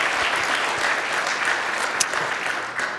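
A church audience gives dense, continuous applause during a morning service, welcoming a preacher who brings the teaching. The clapping stays fairly even and full throughout.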